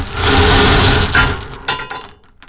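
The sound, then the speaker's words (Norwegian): A prize wheel spins during a number-drawing game, a loud steady whirring that gives way to scattered clicks and rattles as it slows and fades out. “og vi snurrer hjulet igjen”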